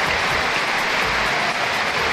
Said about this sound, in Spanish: Aquest era l'aplaudiment al minut 12 del partit entre la Z i el Telstar, equip on juga el porter Koeman Jr., que és fill de Ronald i Bartina